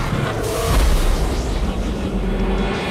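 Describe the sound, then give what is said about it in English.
Chaos Blast, an attack by the foe Chaos Ozma in a turn-based video game battle, sounds as a loud, rumbling explosive boom. It is heavy in the low end and sustained for about three seconds. “Foe Chaos Ozma used Chaos Blast.”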